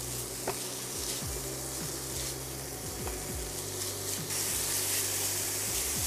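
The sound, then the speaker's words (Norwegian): Pieces of food fry and brown in a pan, giving a steady, dense sizzle and crackling hiss with a few faint scrapes. “Så det begynner å ta farge allerede. Og det veldig viktig at alle bitene helt brune før du fornøyd med stekingen.”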